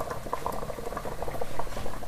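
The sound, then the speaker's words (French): Okra boiling in chicken broth in a stew thickened with peanut paste gives steady bubbling and irregular wet pops, a busy simmer heard on its own without voices. “Le gombo devrait être mis, quand j'ajoutais le bouillon de poulet, ça se bout en même temps.”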